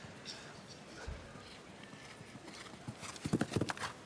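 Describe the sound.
Hooves of a horse, a mare, during a show jumping round, thudding faintly at first, then a cluster of loud, heavy hoof strikes in quick succession near the end.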